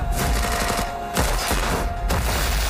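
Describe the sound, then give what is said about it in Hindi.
Gunfire from a gunfight in a film teaser: dense, loud bursts of shots with heavy low thumps run through the whole clip, easing briefly twice before resuming. “जिसकी झलक teaser में इमरान की gun fight और close combat के रूप में दिखाई दे रही है।”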